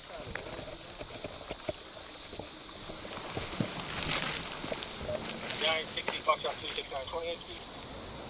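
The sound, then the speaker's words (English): Footsteps tread through soft desert sand in hot conditions, a steady series of muted, soft steps over a constant high hiss. “So we're currently walking through the desert trying to find the body of a man whose wife called him in. And it's really hot out here in the sand. I didn't think the sand was so soft.”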